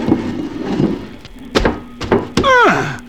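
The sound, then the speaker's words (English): A piano slid off a truck lands on a man's back in a comedy routine, heard as several heavy wooden thuds followed by a loud whistling tone that slides steeply downward in pitch. “All right, slide it off the truck onto my back. Here it comes, Ollie.”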